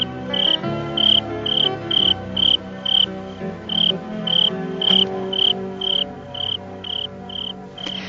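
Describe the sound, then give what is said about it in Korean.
Crickets chirp in a steady, high-pitched pulse, roughly two chirps every second, repeating evenly through the whole stretch without voices. “가만히 귀 기울여 보세요. 한낮에 매미가 울던 공간을 지금은 귀뚜라미 소리가 채워주고 있죠.”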